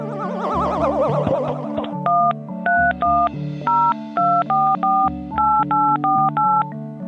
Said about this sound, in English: I'm trying to dial an outside line.